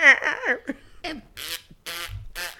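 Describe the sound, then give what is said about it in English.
A human voice imitates fart noises, producing warbling vocal sounds followed by a few short, buzzy, raspy blurts separated by brief pauses. “just fart noises. They were making their armpits fart.”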